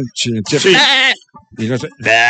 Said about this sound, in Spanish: El chivo. ¿El chivo o la chiva?